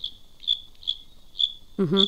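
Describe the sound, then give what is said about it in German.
A steppe cricket chirps in short, high, thin bursts, a few of them at irregular intervals, faint over a quiet background. “So, wir haben an dieser Stelle mal eine Steppengrille gefragt, was sie dazu sagt.”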